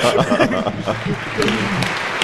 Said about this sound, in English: We ought to applaud these people